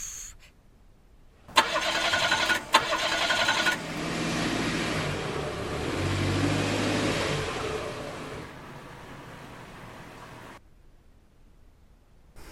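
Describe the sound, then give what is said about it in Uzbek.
A car engine fails to start: a couple of sharp clicks, then the starter cranks steadily for several seconds without catching before cutting off into silence. “Sizga nima bo'ldi, chiroyli qiz? Mashinam zavodda bo'lmayapti.”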